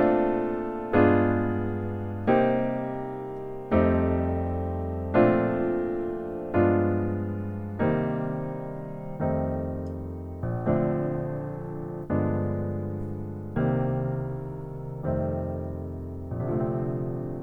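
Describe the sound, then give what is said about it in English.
A 1-6-2-5 chord cadence played in different inversions, with C's on the outside of the voicings, ending on a B flat major 9 chord; a dozen or so chords are each struck and left to decay in a slow, even rhythm. “and then we'll end on beautiful B flat major 9 chord with the C's on the outside. The whole thing sounds like this.”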